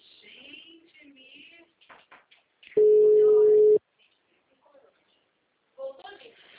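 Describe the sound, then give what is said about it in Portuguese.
Telephone line tone heard while calling a client: a single steady beep lasting about one second, with people talking before and after it. “Voltou, tô tentando ligar pra cliente.”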